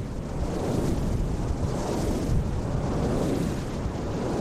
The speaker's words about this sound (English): ninety huge Danish made Vesta turbines capture the wind here.